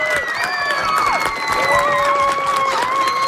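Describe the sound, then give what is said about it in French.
Applause and cheering from an audience of children for three students, a dense wash of clapping and shouts that holds steady throughout. “Et là, moi, je veux qu'on applaudisse vraiment très fort les trois élèves qui nous ont envoyé des très, très bonnes questions.”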